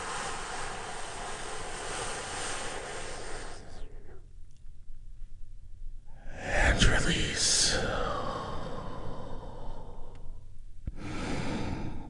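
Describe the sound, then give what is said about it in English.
A deep breath drawn in and slowly released during a guided relaxation exercise, a long airy rush of breath lasting several seconds after a short pause. “take a big, deep healing breath with me right now. Here we go.”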